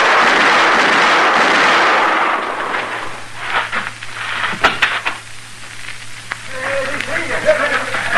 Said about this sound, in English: You hit him all three shots. I could see every one of them.